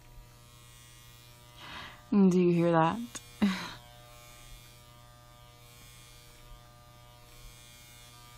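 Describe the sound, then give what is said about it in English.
A vibrator buzzing with a faint, steady low electric hum that runs unchanged throughout, while a voice briefly speaks over it. “That is the sound of me preparing to give myself a delicious orgasm”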